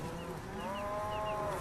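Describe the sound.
Cows low faintly, with one drawn-out, wavering moo rising out of a soft, steady background.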